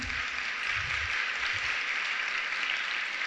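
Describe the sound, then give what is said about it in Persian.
Faint, steady applause from women in the audience at a talk, clapping for themselves. The clapping is soft and even throughout, a low continuous patter without clear breaks. “اگه دوست داشتین برای خودتون دست بزنین خانما. یعنی برای خودتون هم کم میذارین،”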